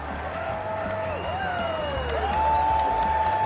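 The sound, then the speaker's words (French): A Swedish crowd cheers at a skiing competition. Long, sustained tones that glide in pitch sit over the steady crowd noise, which grows louder toward the end. “Regardez ce public. On vous laisse écouter ce public merveilleux suédois.”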